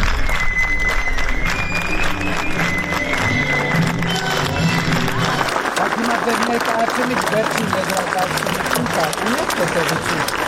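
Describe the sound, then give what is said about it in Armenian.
Audience applause fills a theatre at an event attended by Prime Minister Pashinyan, a dense and steady wash of clapping that continues without a break, with crowd noise beneath it. “Վարչապետ Փաշինյանն անգամ չհամբերեց, որ ոգևորված ու հիացած հանդիսատեսի ծափահարություններն ավարտվեն, ընդհատեց, որ իր պատկերացրած իրական Հայաստանի քարոզը սկսի։”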